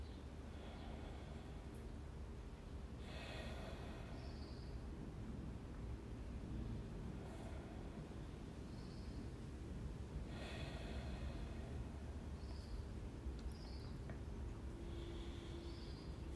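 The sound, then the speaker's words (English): Slow, deep breaths, a few soft drawn-out airy swells spaced several seconds apart, faint over a steady low hiss with no talking. “So I take a few breaths”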